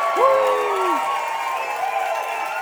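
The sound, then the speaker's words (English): A church audience cheers at a Sunday service: a loud whoop rises and falls over a sustained crowd roar. “And I would love everybody to just cheer as loud as you can.”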